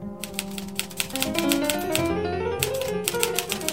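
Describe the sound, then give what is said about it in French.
Typing on a keyboard or typewriter: many rapid, irregular key clicks follow one another steadily for several seconds, with no one speaking. “Et moi, je tape.”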